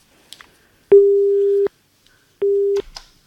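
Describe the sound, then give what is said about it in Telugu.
A telephone busy tone after a dropped call: two steady mid-pitched beeps, the first longer than the second, with a few faint clicks around them. “Call drop అయింది madam.”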